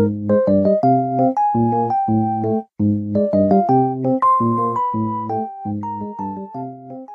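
Calm video game theme music for non-threat scenes, such as wandering through a Hamburg club: bell-like chords and a gentle melody repeat at a moderate, even pace, with a short break near the middle and no voices.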